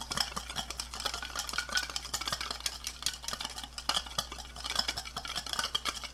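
Mustard dressing pours over a salad in a kitchen, giving a soft, continuous wet crackle and rustle of leaves that holds steady throughout, with no talking.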